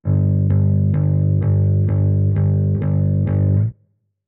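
Electric bass with a light fuzz distortion plays a steady run of about eight evenly spaced repeated notes, gritty and full, then cuts off abruptly.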